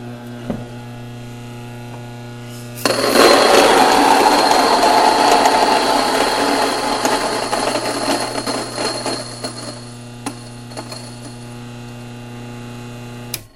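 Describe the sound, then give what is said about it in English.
An electric grain mill grinds grain with a loud, coarse whirring roar that starts abruptly over a steady electrical hum, runs for several seconds, then cuts off, leaving the hum and a few sharp clicks. “That is the sound of bread being made. Actually, it's the sound of grain being ground.”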